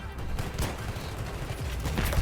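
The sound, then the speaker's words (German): Suppressed AS-Val rifle gunfire in the video game Battlefield 3 on the Operation Metro map: faint, muffled bursts of rapid shots over a dense, noisy game background. “Operation Metro using the AS-Val.”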